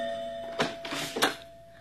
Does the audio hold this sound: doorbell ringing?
yes

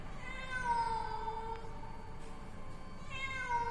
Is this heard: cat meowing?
yes

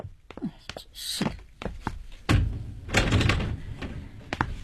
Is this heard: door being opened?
yes

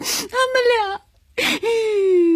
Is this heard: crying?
yes

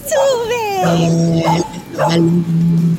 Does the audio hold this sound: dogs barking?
yes

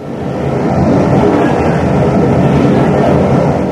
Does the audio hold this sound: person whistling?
no

